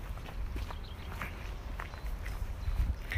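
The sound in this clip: Footsteps of many runners passing by, quiet and quick, with irregular overlapping patters over a low rumbling background.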